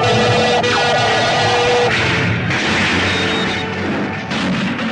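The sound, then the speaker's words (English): Starship phasers fire point blank as the Enterprise comes under heavy attack from an enemy vessel: a loud, dense blast of noisy energy with a bright tonal whine through the first two seconds, sustained and continuous throughout. “Phasers, fire, point blank.”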